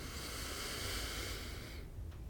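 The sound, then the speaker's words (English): A deep inhale through the nose during a guided breathing exercise: one long, steady, airy hiss that holds for almost two seconds and then stops abruptly. “let's please take a nice deep breath in all together and let it go. And let's just do that one more time. Nice deep inhale through the nose”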